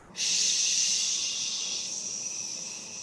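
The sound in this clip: Slow exhale during a guided breathing exercise: a steady, airy hiss of breath that starts abruptly and holds for about three seconds, easing off slightly toward the end.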